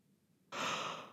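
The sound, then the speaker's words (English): A yawn comes as a single short, breathy exhale that begins abruptly after near silence and fades over about half a second. “sorry. Podcast yawn.”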